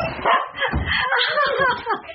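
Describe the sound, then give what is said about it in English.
A happy dog yaps excitedly in an eager greeting, a quick run of loud, high yips and short whimpers in an uneven, bouncing rhythm. “it's hard not to smile when you're greeted by a delirious display of uncontrolled canine joy. But it's not just the happy yapping and wriggling tail wagging that tug at our heartstrings.”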